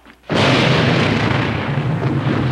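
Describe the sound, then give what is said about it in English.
A battlefield explosion tearing into the ground amid soldiers bursts in after a brief hush, then rolls on as a loud, broad, sustained roar with no voices. “Explosions tear into the ground. Dirt and smoke blast upward amid the young soldiers.”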